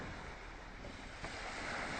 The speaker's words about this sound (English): Oh. We're on a boat. Yeah, we're on a boat.